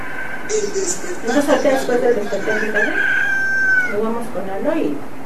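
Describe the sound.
A rooster's crow rings out as a long, wavering, harmonic call that stretches over several seconds. It is loud and clear over a busy backdrop of other sound.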